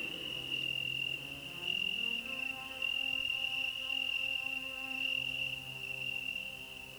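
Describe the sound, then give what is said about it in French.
Oecanthus tree crickets chirping: a continuous, high-pitched trill that holds steady throughout, faint and unbroken, with no voices. “Des grillons Eucanthus.”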